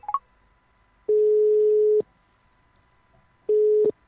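Telephone dialing while calling a number: a few quick dialing beeps, then two steady, mid-pitched electronic tones, the first about a second long and the second shorter, separated by silence.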